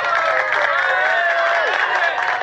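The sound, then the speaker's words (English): An audience welcomes a guest with applause and cheering, a dense, steady wash of clapping and raised voices that holds at full strength throughout. “Please put your hands together for Shane Dawson.”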